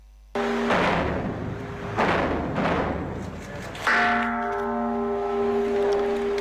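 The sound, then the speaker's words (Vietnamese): Temple bell tolled at a Buddhist memorial ceremony in Vietnam: three deep, resonant strikes spaced about two seconds apart, each with a loud attack and a long humming decay, the last ringing on with bright sustained overtones. “Ba hồi chuông là lời tri ân những người đã hy sinh vì độc lập tự do của Tổ quốc”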